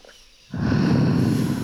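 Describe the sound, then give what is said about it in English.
A person exhales forcefully: after a brief quiet moment, a single long breathy rush of air starts abruptly and holds steady and fairly loud to the end. “Good job with the exhale.”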